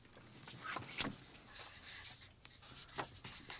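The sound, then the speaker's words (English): Pen writing on cards in big, bold letters: many short scratchy strokes in an irregular rhythm, fairly faint, with no voices over them. “So on the back of your cards, I need you to write in like big, bold letters so that they're real easy to see when they're on the table. On the back, on the blank side, write sane.”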